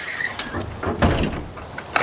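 A house's front gate is opened with a few clattering knocks and scraping movements. The sounds are moderately loud and uneven, with a firmer clunk near the middle.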